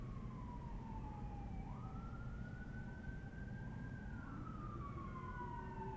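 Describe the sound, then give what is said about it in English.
An emergency vehicle siren wails over a steady low rumble. Its tone slides down, jumps up and holds, then falls again, fairly faint throughout. “Apologies for the sirens.”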